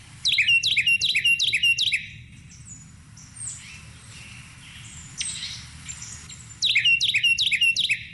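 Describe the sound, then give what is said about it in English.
Bird calls played for identification: bright, high chirping notes come in quick repeated bursts at the start and again at the end. Fainter, scattered calls fill the quieter middle, with no voices. “I'd love to play some bird calls and have you guys talk about like what bird is that and how do you guys remember the call of that specific bird?”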